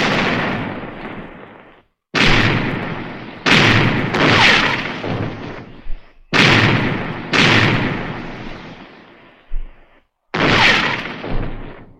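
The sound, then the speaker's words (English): Ship's cannons fire a broadside in a run of heavy booms, each blast rolling out into a roaring tail before cutting off. Brief silences separate the volleys, and one short extra bang comes near the end. “Give them another broadside! Pound them, lads! Pound them!”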